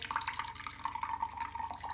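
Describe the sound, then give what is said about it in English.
Liquid poured over ice, a brownish drink filling a glass, gives a steady splashing trickle that holds at a moderate level for the full two seconds. “So we pour this over ice.”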